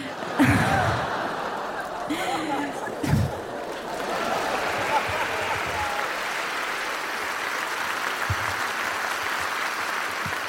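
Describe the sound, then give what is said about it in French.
Thin, scattered audience applause offered out of pity, faint and steady throughout, with a couple of brief vocal sounds in the first few seconds. “Ça sent les applaudissements de la pitié.”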